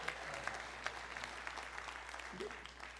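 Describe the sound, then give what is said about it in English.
Audience applause at a live music show, a steady dense patter of many hands clapping at once, fairly faint, with a few slightly sharper claps standing out. “yes, you can clap, it's good.”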